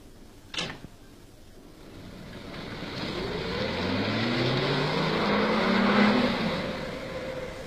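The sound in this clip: A car is driven aimlessly around in circles. A short, sharp knock comes first, then the engine builds into a smooth drone whose pitch climbs steadily as it grows louder, before easing slightly at the end.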